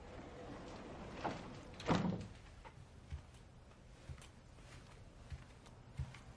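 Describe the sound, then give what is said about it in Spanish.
A door is shut in someone's face with one firm thud, followed by a few faint, evenly spaced knocks over quiet background noise. “Le cierra la puerta en la cara.”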